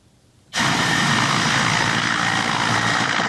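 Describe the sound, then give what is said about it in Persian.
Loud, steady roar of a Mi-8 military helicopter, armed with unguided rockets and flown by Ukrainian forces in the war with Russia. It bursts in abruptly after a brief quiet start and holds as a dense, even drone to the end. “در جنگ با روسیه اوکراینی ها از چرخ بالی می 8 استفاده میکنند که با موشک های هدایت نشونده مسلح است.”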